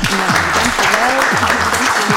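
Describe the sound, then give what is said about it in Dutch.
An audience claps continuously to welcome a guest, a loud, even wash of applause with voices rising and falling over it. “Mag ik applaus voor Marleen van den Hout.”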